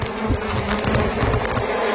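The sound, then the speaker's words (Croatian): Buzzing from a hive packed full of bees on Mali Lošinj: a loud, dense hum with low droning tones and a fluttering texture that runs steadily for two seconds, with no voices. “Ovo je uživo sa malog Lošinja i ne šalim se, dobili smo video, puna košnica pčela.”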